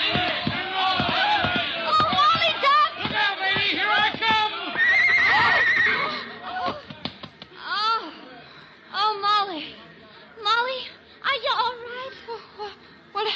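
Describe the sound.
Horse whinnies and neighs ring out among excited voices as a cowboy rides and the rider loses a stirrup, with several wavering cries through a busy, loud mix.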